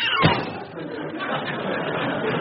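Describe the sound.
A door slams shut inside a home with a single sharp thud near the start, followed by a continuing murmur of voices.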